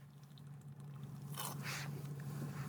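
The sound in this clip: A can of Old Style lager cracks open with a brief snap and a short fizzing hiss over a faint low hum.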